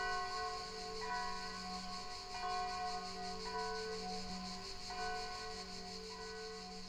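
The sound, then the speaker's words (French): Church bells ring in a sustained, overlapping peal, with fresh strikes arriving every second or so over a continuous humming resonance, fairly faint and with no talk. “à chaque fois que je te pose cette question, il y a des cloches qui se mettent à sonner.”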